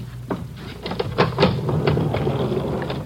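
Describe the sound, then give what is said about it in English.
An elevator arrives and its doors open in a building with rented rooms: a steady low motor hum under a few sharp clacks and knocks, followed by a sustained rumbling, sliding rattle as the doors roll open, with no voices. “Here's the elevator.”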